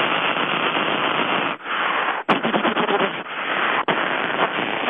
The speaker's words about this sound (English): Now here's a submachine gun.